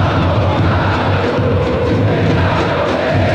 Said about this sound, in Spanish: Así suena el ambiental, así suena el estadio.